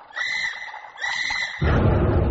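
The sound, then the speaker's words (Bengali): An owl screeches harshly outside, two raspy, strained calls in a row, followed by a louder rush of broad noise. “বাইরে একটা প্যাঁচা কর্কশ কণ্ঠে চিৎকার করে উঠল”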